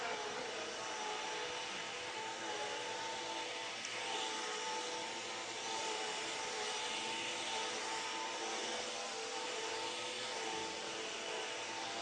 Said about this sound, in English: So go ahead, I got to finish up some vacuuming. I'll be with you in just a moment, okay?